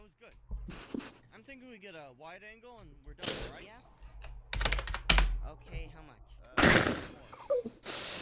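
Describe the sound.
Bursts of rapid, heavy typing on a computer keyboard, with several loud clusters of keystrokes scattered between and under people talking and laughing.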